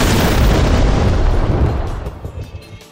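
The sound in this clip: A fiery explosion from an inferno fire spell: a loud, dense roaring blast that holds steady for about two seconds, then gradually fades away.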